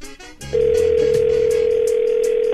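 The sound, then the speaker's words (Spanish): Telephone dial tone heard while a call is placed and goes unanswered. A steady, loud, unbroken tone begins after about half a second and holds to the end. “Estoy marcando yo.”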